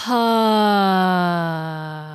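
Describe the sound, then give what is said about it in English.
A voiced exhalation through the mouth, a long steady low 'ahh' tone that starts clearly and slowly sinks in pitch and fades as the breath runs out. “And when you then start to breathe, exhale out of the mouth, or with a nice sound like,”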